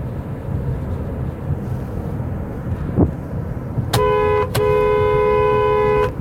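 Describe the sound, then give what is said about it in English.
A car horn honks while driving past a house: a short toot followed by a longer sustained blast over steady road and engine noise. “Do you know what I just did? Did you hear that? If you listened to yesterday's podcast, I said when I was going to drive by the house, I was going to honk my horn.”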